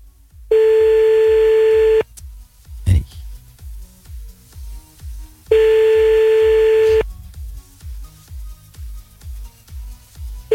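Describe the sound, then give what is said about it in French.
An outgoing telephone call rings twice, each ring a steady mid-pitched tone about one and a half seconds long, separated by a pause, over a low, regularly pulsing music bed. “On y va, c'est parti, on appelle maintenant”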